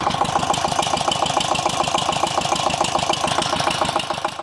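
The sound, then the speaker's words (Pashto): A water pump engine draws water from deep wells to irrigate a melon field. It runs loud and steady, with a fast, even chugging beat that stays unbroken from start to finish, with no voices. “کروندګر د پالیز د پاره اوبه د ژورو څاګانو نه د واټر پمپ ماشین په واسطه راباسي.”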